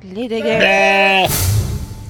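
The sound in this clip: A goat bleats once in a drawn-out, wavering, nasal cry on a cold January night. The bleat is loud and strongly harmonic, then breaks off into a burst of hissy noise with a low rumble beneath.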